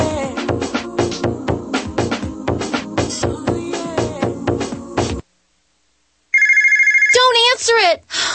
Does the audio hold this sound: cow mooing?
no